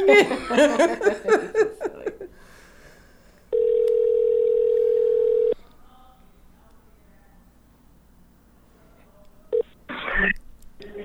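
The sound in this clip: Steady telephone tone lasting about two seconds, heard while a contestant is being called during a dating-game segment, with laughter and talk before it and a couple of short bursts near the end.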